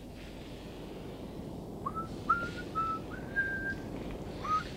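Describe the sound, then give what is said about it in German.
Someone whistles a simple tune, a few short clear notes at a fairly high pitch. The melody is faint and sits over a steady background hiss, with small pauses between phrases. “Könntest du nicht mal was anderes pfeifen?”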